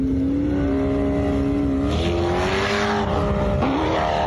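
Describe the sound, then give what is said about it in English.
A dune buggy and an SUV rev their engines on Dubai sand dunes: a loud, sustained engine drone whose pitch wavers and climbs toward the end. “They do the same crazy shit in Dubai. Guy's got a dune buggy and some dude has an SUV. Watch how this unfolds.”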